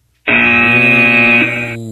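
A loud elimination buzzer sounds once on a sports radio show: a single harsh, steady electronic buzz that holds for about a second and a half before cutting off.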